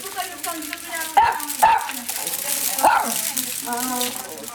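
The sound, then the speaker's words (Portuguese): Dogs barking in a rural setting. A few sharp barks break through while a person keeps talking over them. “tem aí mais dois cães?”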